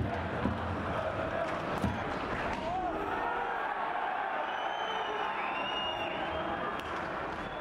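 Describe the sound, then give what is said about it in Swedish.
Hockey supporters cheer in the arena during a heated Frölunda versus Linköping match: a faint, continuous crowd roar with whistles and scattered voices, plus a few dull thuds. “Stämningen i arenan var även kokande och supporterna var igång under hela matchen.”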